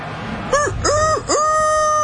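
A rooster crows in one loud, drawn-out call of three rising-and-falling syllables, the last held steady to the end, with no talk over it.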